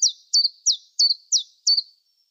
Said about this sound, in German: Dafür spiele ich jetzt mal einen Vogel ein.